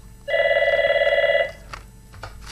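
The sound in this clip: A telephone rings for an incoming call: one long, loud, trilling ring with a rapid warble lasting just over a second. The line then falls quiet apart from faint background noise.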